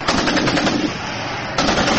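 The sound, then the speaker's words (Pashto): Heavy-weapons gunfire at the Pakistan–Afghanistan border: dense, rapid machine-gun bursts rattle loudly and continuously, ease briefly in the middle, then resume at full strength. No voices are heard. “د غټو وسلو دا ډزې په فرما کې پر پاک افغان پوله یو ځل بیا د شروع شوې جګړې دي.”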